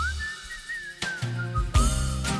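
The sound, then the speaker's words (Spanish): A song carried by a clear whistled melody, the pitch wavering gently over backing music that grows louder and fuller partway through. “te voy a poner una canción de silbidos. No sé qué es.”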